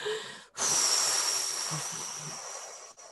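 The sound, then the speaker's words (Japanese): A long, breathy exhalation through the mouth during a guided meditation forms a steady airy rush. It lasts a couple of seconds after a brief pause, then fades out. “そこにエネルギーを吸い込んで口から吐きますよ。”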